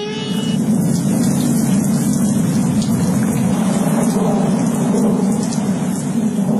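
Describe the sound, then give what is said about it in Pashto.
Heavy rain pouring down in a loud, dense, continuous roar, with a deep rumble running steadily beneath the hiss of the drops throughout. “په لنډو ورځو کې یو خطرناک باران را روان دی”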